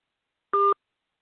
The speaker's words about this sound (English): All right, I'm going to call her right now. Stay there. I'm going to call her right now.